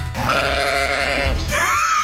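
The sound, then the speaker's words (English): A goat bleats during a sound-guessing game: one long, loud, raspy bleat held for about two seconds. “You got to get this one. Goat. Goat? Yeah, goat.”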